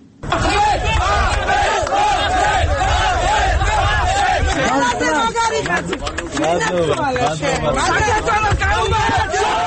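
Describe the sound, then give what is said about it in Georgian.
A crowd of political supporters shouts and cheers at a court ruling on a cancelled election candidacy. Many voices yell and call out together, loud and continuous for the whole stretch. “ასეთი შეძახილებითა და ოვაციებით შეხვდნენ მოსამართლის გადაწყვეტილებას”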